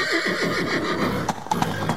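A white argamak horse neighs with a loud, wavering whinny that fills the first half. Several sharp hoof clops from its galloping follow in the second half.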